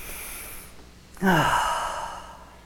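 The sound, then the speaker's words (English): A single big, deep breath taken during a sermon, starting suddenly and then slowly fading as a long exhale with a falling, voiced sigh. “I want everybody right now, take a big deep breath.”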